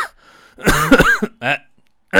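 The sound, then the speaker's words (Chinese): A voice imitates the chronic cough of long-term bronchitis with a few harsh, rattling cough and throat-clearing bursts separated by short pauses. “咱们说这个咳嗽的，你像老慢支气管炎的，常年咳嗽的，一听这声”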